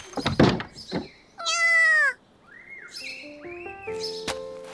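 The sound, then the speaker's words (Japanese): A stray cat gives one long, loud, harmonic meow, preceded by a few sharp thuds and followed by fainter, shorter tonal calls. “どうしたの？散歩中？それとも餌が欲しいのかしら？遊んで欲しいみたいね。ねえ、この野良猫どう思う？”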